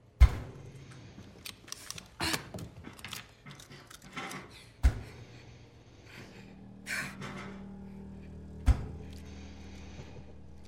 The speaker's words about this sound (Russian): Достает зажигалку.